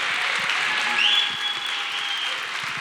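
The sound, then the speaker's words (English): A church audience applauds as a speaker is welcomed onto the stage, a dense, even wash of clapping that holds steady throughout. “Stand to your feet. We give honor where honor is due. Put your hands together.”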